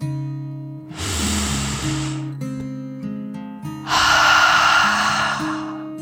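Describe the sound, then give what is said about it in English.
A deep breath drawn in and then let out, voiced as a dragon's breath in a children's relaxation story, as two long airy rushes over soft, steady background music. “Dragon circled the tree, taking a deep dragon breath in and out.”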